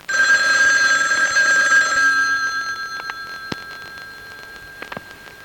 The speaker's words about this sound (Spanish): Jordi Piñol seguro que te está llamando al aparato. Anda, coge el teléfono